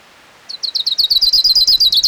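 An orange-crowned warbler sings a loud, high-pitched trill of rapid, evenly repeated chirping notes that begins abruptly after a brief quiet moment and keeps a steady rhythm to the end.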